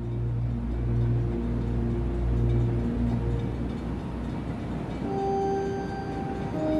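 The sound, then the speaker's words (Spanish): A train rolls into a station with a steady low rumble and droning tonal hums, joined toward the end by higher whining tones as it comes in, with no voices. “el tren va suavemente llegando a una estación”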